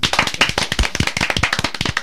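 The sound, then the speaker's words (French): Several people clap their hands together in rapid, uneven bursts, a dense crackle of sharp slaps that holds steady and fairly loud for the whole stretch, with no talk over it. “Ah, bah ouais, on va applaudir une troisième fois alors.”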